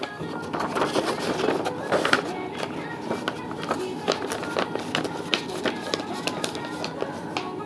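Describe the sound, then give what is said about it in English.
Screws being driven in make many short clicks and taps in an uneven rhythm over a steady rustling background. “And oh, we're screwing these in.”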